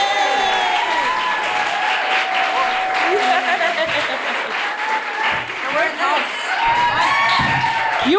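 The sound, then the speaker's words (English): Audience applause and cheering for a guest, dense sustained clapping filling the whole stretch with whoops and shouting voices riding over it, loud and steady throughout. “Please put your hands together and make extraordinary crazy ex-girlfriend noises for Rachel Bloom!”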